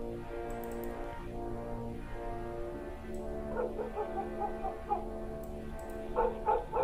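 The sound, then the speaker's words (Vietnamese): Dogs barking and yelping from a house across the way, several sharp bursts over a steady, droning background with sliding tones. “Có mấy con chó ở nhà đầu bên kia vẫn cứ sủa sang ghê lắm.”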